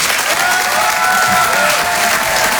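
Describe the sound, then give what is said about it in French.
An audience gives a stage performer a warm ovation, with dense, continuous clapping and a faint crowd murmur beneath. The applause stays steady and full throughout, with no one speaking over it. “Je vous demande de l'encourager très chaleureusement, de faire une ovation, s'il vous plaît, à Karine Dubé.”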